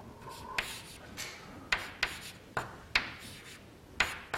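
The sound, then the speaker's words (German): Writing on a board: scratchy rubbing strokes broken by a series of sharp, crisp taps at irregular intervals, fairly quiet and heard on their own. “ich schreibe es nochmal hin, weil ich es gleich nochmal brauche. Ja, ich schreibe es nochmal hin.”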